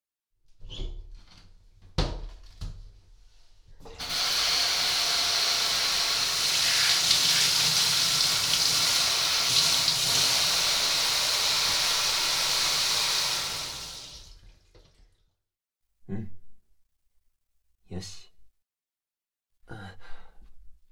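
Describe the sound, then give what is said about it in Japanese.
Water is poured over a bather's back in a bath, a steady, continuous rushing pour lasting about ten seconds, with a few short knocks and splashes before and after it. “ではお背中をお流しいたしますね。”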